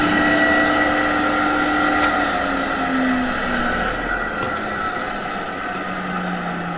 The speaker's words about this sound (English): I'm just going to turn off the blower.